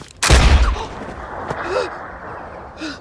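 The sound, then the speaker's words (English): A gunshot cracks in a film scene where a woman fires at a maid on a shooting outing: one loud, sharp blast with a rumbling, fading tail, followed by quiet background and faint voices. “Sarah has taken Abigail the maid out to go shooting, and she shoots a gun right at Abigail and then calmly goes on.”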